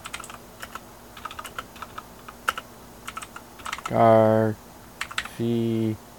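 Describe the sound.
Fingers type on a computer keyboard in many light, irregular clicks. Near the end, two brief voiced hums sound over the typing.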